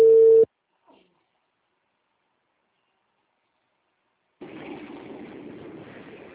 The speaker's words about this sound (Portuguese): Fazer uma ligação agora, então.